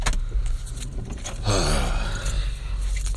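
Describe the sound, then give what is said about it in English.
A car interior is filled with the engine and road noise of a drive to work before sunrise: a steady, dense rumble and whoosh that stays loud and even throughout, with no clear voices. “That's right, guys. I'm driving to work pre-sunrise.”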